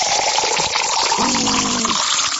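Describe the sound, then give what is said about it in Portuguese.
Water poured into a cup during a church birthday celebration: a steady rushing gush over a continuous noisy background, with a faint low tone entering midway. “Depois desses aplausos, só tomando agora uma aguinha da boa, né? Vamos tomar uma aguinha?”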